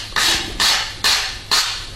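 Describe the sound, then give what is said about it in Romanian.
Chalk strikes across writing on a blackboard, four sharp, scratchy strokes in an even rhythm, each a bright burst that tails off before the next. “Acum ia creta și pur și simplu taie tot ce a scris.”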